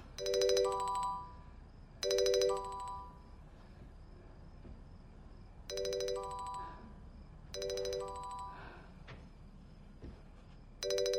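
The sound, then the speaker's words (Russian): A phone ringtone sounds from a bedside table beside a sleeping elderly woman. It comes as five bright, chiming electronic bursts with pauses between them, the last cut off, over a quiet low background. “На столике возле кровати, где спит пожилая женщина, звонит телефон.”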